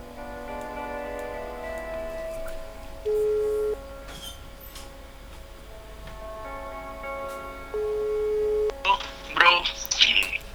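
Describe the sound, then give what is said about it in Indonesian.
A telephone call rings out on the line as two steady, low ringback tones separated by a pause. They sound over a faint sustained background, and a short burst of brighter sound follows near the end. “Kita coba teleponnya.”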